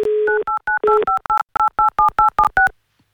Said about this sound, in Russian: Убираем звук и будем пытаться дозвониться.